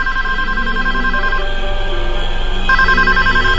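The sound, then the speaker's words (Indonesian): A telephone rings in a room in two loud, warbling bursts separated by a pause, over a steady, dense background hum. “Ada suara telepon berbunyi di kamar itu.”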